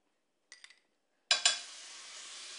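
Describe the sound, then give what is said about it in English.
Garlic goes into hot oil in a pan. A few faint clinks of utensils come first, then a sudden crackling burst that settles into a steady, hissing sizzle. “So we're putting in some garlic in there.”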